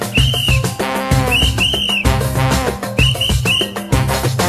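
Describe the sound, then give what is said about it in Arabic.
A few short whistle tones used as a coded signal, each a clear high note that rises and falls, coming in small groups over a steady musical backing. “راح يكون بيننا شفرة وإشارة بالتصفير”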